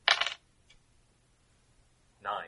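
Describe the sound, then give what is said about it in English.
Dice clatter as they are rolled for a spellcasting roll in a tabletop game: a short, bright rattling burst, then quiet, then a second brief clatter right at the end. “Okay, make a spellcasting roll.”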